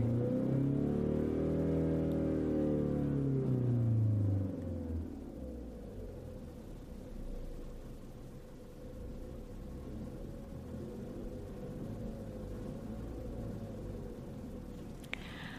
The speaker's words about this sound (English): place your foot on the gas, press the ignition button, and listen to this baby purr.